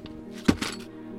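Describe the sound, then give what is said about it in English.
A sack of silver coins is set down with a dull, heavy thunk and a softer second knock just after, over a steady low hum. “I actually have my first round of silver coins here.”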